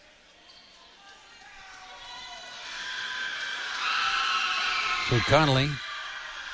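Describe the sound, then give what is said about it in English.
Irish fans make noise at a basketball game against Grants Pass, a broad crowd roar that swells steadily and peaks in a shrill whoop near the end while a commentator talks over it. “That noise you hear is coming from the Irish fans here.”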